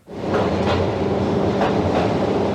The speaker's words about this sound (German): Langsam fährt die kleine Bahn schräg hinunter in den Tunnel, bis in eine Tiefe von 700 Metern.